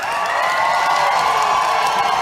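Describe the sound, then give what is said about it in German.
Press attendees cheer enthusiastically as two band members in dark suits walk onto the stage of the Berliner Volksbühne. The crowd sound is a loud, steady wash of whoops and shouts with no pauses. “Sie werden von den anwesenden Presseleuten begeistert begrüßt.”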